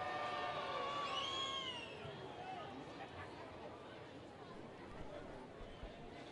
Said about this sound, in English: Crowd still into it here in Salem.